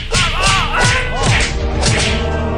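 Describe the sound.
In a video game, a stick weapon lands an accidental blow, heard as several swishing whooshes with dull thudding hits, repeated in quick succession over a constant bed of game noise.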